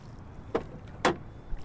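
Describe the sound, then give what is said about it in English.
A boat pushing out onto calm, glassy water: two short, swishing splashes about half a second apart, fairly quiet against a low background hush, with no voices. “As we push out onto the glassy water”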